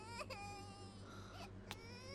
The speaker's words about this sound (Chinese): 哎呦，不哭啊， 不哭不哭。